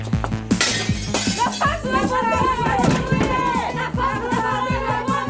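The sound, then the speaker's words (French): Window glass smashed by a suffragette activist storming a polling station, with two sharp shattering crashes early on and tinkling fragments. Excited crowd voices and shouting follow and build over the rest. “Tandis que Madeleine Pelletier brise une vitre, Hubertine Auclair, aidée de quelques militantes, renverse une urne au sein du bureau de vote.”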